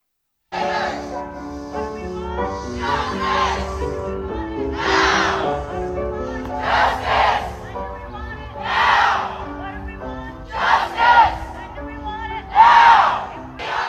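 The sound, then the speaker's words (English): A street protest crowd shouts in repeated loud bursts while a hymn plays loudly from a neighbor's open windows to drown it out. The sustained music runs underneath, and the cries rise over it again and again. “She's trying to drown out the protest. You're going to hear the protest.”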